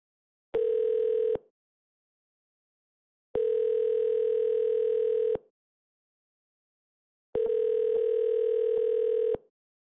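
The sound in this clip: A telephone tone sounds after a caller disconnects: three steady, even beeps separated by pauses. The first is shorter than the other two, and no one talks.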